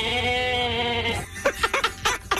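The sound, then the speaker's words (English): A novelty car horn imitating a bleating goat gives one loud, nasal, buzzy bleat held for about a second, followed by a few short, choppy bursts. “goat horn goes off?”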